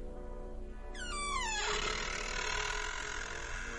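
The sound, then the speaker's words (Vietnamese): An iron door creaks as it is pushed open, giving one drawn-out squeal that falls in pitch over a faint, steady background hum. “đẩy cánh cửa sắt làm cho nó kêu lên kẽo cả kẽo kẹt.”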